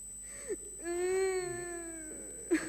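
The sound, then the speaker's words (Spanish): Crying heard as one drawn-out, tonal wail that holds steady for over a second before trailing off, framed by short breathy sounds before and after. “No sé por qué llora.”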